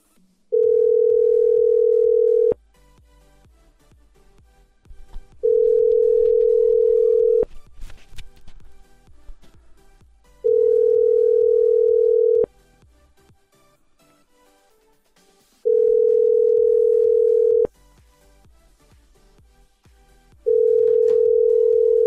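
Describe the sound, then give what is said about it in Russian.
Ringback tone on a phone call being dialed: a steady, low, loud tone sounds in five long bursts of about two seconds each, separated by quieter gaps of roughly three seconds, with the last burst cut off at the end. “Так, короче, я еще раз набираю.”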